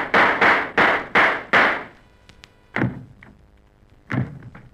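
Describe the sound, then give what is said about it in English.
Gunshot sound effects for a comedy western shootout sketch: five sharp bangs in quick, even succession, then two more spaced-out bangs after a short pause. “The two sound effects men shot each other.”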